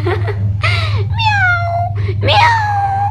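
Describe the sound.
Cat meowing: several drawn-out, tonal meows, the longer ones sliding slightly downward in pitch, with short gaps between them over a steady low hum.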